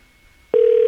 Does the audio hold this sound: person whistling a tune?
no